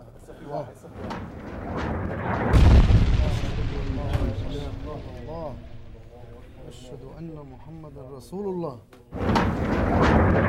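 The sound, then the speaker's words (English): A barrel bomb explodes about 100 yards from a hospital in Syria, a heavy, deep boom that swells and rumbles before fading, followed by voices talking over lingering noise. “A rebel fighter filmed one of the barrel bombs exploding just 100 yards from where we were.”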